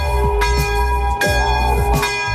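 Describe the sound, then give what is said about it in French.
A church bell rings loudly to call the faithful together, with a few strong strikes spaced apart and a rich, humming tone that sustains and overlaps between them. “La cloche appelle les fidèles au rassemblement.”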